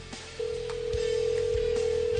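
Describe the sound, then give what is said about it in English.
A telephone line rings during a call to Los Angeles for a prize giveaway: after a short pause, one steady, mid-pitched tone starts and holds at an even level to the end over a low background rumble. “That's your phone. Go ahead and answer it.”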